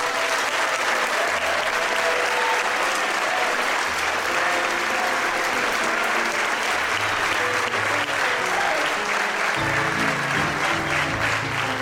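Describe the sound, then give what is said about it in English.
An audience applauds to welcome the philosopher Slavoj Žižek. The dense clapping stays loud and even for the whole stretch. “Please join me in welcoming Slavoj Žižek.”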